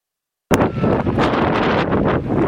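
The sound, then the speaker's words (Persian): Strong wind battering tents in Herat: a loud, continuous roaring gust that bursts in suddenly and keeps up a dense rustling, flapping rush with small surges throughout. “اما مقاومت خیمه ها در برابر بادهای تندی که در هرات میوزه محدود است.”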